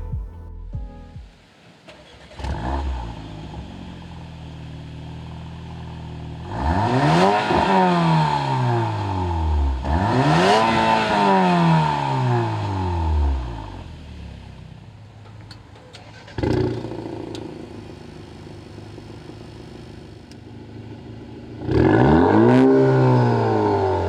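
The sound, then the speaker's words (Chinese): Four-cylinder engines of a Maserati Grecale and a Porsche Macan rev in turn, with several sharp throttle blips that each climb and then fall away into a fading growl. “玛莎的声浪比保时捷好听。我知道四缸机很难让人尽兴，但比还是可以比一比的。”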